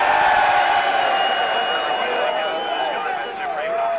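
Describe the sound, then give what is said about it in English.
Sixty thousand spectators in the racecourse grandstands roar and cheer as the first race of a horse racing festival starts. The crowd noise is a loud, continuous din with whoops and shrill whistles rising through it. “That was the sound of the first race setting off at this year's Cheltenham Festival, cheered on by 60,000 spectators leaning out of the corporate boxes packed into the grandstands.”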